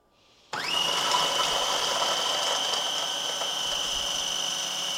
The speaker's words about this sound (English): Think about the food processor over the mixers, it's really fast. Not quite as fast as I thought.